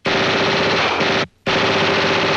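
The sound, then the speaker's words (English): Gunfire aimed at a ceiling, a loud, dense, rapid rattle of shots that cuts out for a brief silent gap and then resumes just as hard. “She's firing at the ceiling.”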